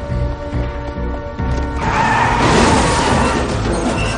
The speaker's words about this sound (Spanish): El vehículo choca y el hombre cae inconsciente y herido sobre el volante.